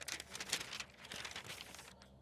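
A paper letter is handled with faint, continuous rustling and soft crinkling, the crackle rising and easing slightly as it is moved.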